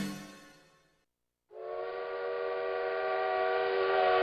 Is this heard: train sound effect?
yes